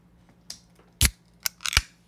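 Someone tears open a package. A few short, crackling rips and rustles are separated by quiet gaps, and the loudest burst lands midway through.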